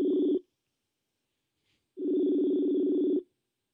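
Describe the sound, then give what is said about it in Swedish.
Ringing tone of a Messenger voice call: a steady, buzzy electronic tone that cuts off at the start, then after a pause of silence sounds once more for just over a second before stopping, with no talking. “testa ringa han via Messenger här då.”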